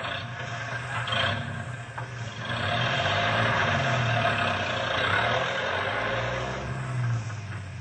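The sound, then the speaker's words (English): A truck drives off slowly, its engine giving a low, steady rumbling drone that grows a little louder partway through and wavers gently in pitch. “Okay, you better get going. You'll have to drive slow.”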